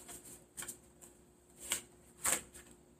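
Playing cards are shuffled for a card reading in a few soft, papery riffling bursts. The last two bursts are the loudest, with quiet pauses between.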